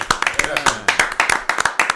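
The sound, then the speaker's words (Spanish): Enthusiastic clapping welcomes a guest bass teacher: sharp, rapid handclaps in a loud, uneven rhythm, each burst crisp and percussive, with no talking over them. “No esperaba lo del aplauso, me mató, no lo esperaba.”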